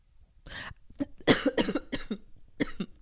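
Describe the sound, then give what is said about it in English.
A person coughs while choking, a rapid series of harsh, hacking coughs in quick succession with a short pause before a final burst, alone with no talk. “Sorry, I was choking.”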